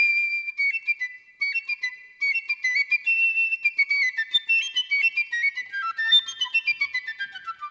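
Solo piccolo flute in the Elbphilharmonie concert hall: many rapid, high, bright and piercing notes, articulated in short runs and ending with a quick descending run.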